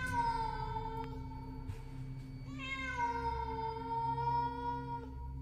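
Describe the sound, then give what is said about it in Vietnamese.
A cat meows, its cries echoing up from a dark underground passage beneath a brick-covered stairway: two long, drawn-out tonal calls, the second beginning midway. They are fairly faint and heard alone. “Con mèo chạy xuống biến mất trong bóng tối. Chỉ để lại những tiếng kêu meo meo vọng lại như đang muốn gọi Huy đi theo.”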